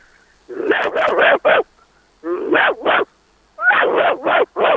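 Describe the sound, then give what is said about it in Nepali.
A person imitates a dog barking: loud, yappy barks in three bursts of several rapid yips each, separated by short silent pauses. “दाइ कुकुर भुक्न पाइन्छ कि? है, पाइन्छ हो, पाइन्छ। ल ल, भुक्दिनु पर्यो। ल सुरु गरेँ दाइ”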